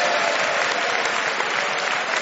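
A studio audience applauds as a comedy panel game ends with joint winners. The clapping is dense and steady, holding at an even, full level throughout with no voices.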